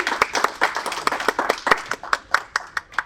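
Applause from a live audience welcoming a comedy act on stage: dense clapping at first that thins into distinct, sharp individual claps at a quickening, uneven rhythm toward the end.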